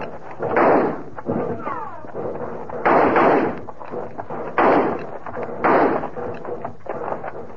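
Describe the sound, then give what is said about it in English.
Gunfire in a radio western drama: four loud, booming bursts of shots come at uneven intervals, with voices talking between and under them. “They quit firing. I guess they must be reloading.”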